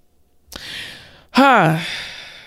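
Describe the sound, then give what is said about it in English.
A speaker takes a breath: a soft breathy inhale, then a louder sighing exhale with a voiced tone that dips in pitch and trails off. “Let me just take a breath on that.”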